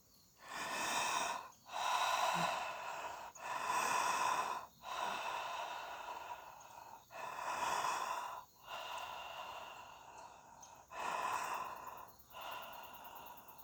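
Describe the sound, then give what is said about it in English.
Continuous open-mouth breathing in a breathwork exercise, inhaling and exhaling without pause, forms a steady cycle of many airy, rushing breaths that swell and fade in rhythm, with no talking. “you want to open your mouth and you're going to inhale and exhale without stopping. It sounds like this.”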